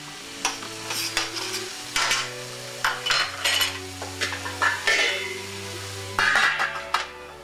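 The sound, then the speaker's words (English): Onions sauteing in a pan while being stirred: many scraping strokes of a utensil against the pan over a soft, steady sizzle of frying. “I'm sauteing the onions so they'll become soft and brown. And in order to speed it up a little, I like to put the cover on, oh, for about 10 minutes. Take it off every so couple of minutes and give it a stir.”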